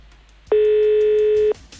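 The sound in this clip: A single steady telephone ring tone sounds for about one second, a clear, buzzing mid-pitched tone that starts and stops abruptly, alone with no voices.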